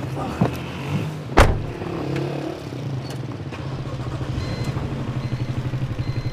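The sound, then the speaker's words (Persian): Someone gets into a car: a light clatter and one sharp thud like a door shutting. The engine then runs with a steady, low, rhythmic throb that grows slightly louder toward the end. “پارسا سوار ماشینش میشه.”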